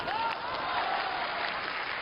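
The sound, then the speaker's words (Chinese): An audience at a stage comedy performance applauds with dense, continuous clapping that stays faint and steady throughout the brief stretch, without a clear rise or fall. “现在给我鼓掌的观众朋友们”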